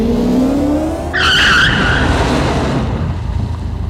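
A car accelerating at full throttle on a street with its tyres skidding: the engine's loud roar rises in pitch, then a sharp tyre squeal cuts in for under a second over continuous rushing noise.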